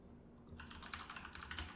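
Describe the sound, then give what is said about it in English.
Fingers tap quickly on a computer keyboard, typing text into a map search. Many soft, rapid keystrokes start after a brief quiet moment and run steadily to the end, faint against a low background hum. “I need you to type in Silver Towers NYC.”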